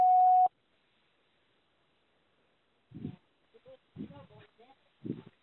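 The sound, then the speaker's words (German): An answering machine gives one signal tone, a steady mid-pitched beep lasting about half a second, followed by a long silence and then a person talking. “Nach dem Signalton nehmen Sie Ihre Nachricht auf.”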